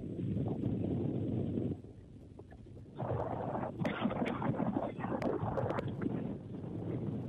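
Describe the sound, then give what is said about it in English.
Wind blows at an outdoor football game, buffeting the microphone as a faint, low, rumbling roar in gusts, with a quieter lull partway through before the gusting returns. “The wind picks up again.”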